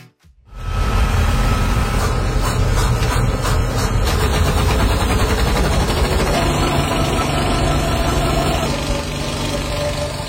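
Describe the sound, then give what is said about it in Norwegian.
A film reel projector runs during a cinema screening in the US, giving a loud, steady mechanical whir and rattle over a low rumble. It starts abruptly and continues without pause. “du vet hva en filmrulle er. Rundt ting med sånn bånd som går inn. Så lager de også veldig mye lyd. Bare hør her, her en visning av The Odyssey I USA.”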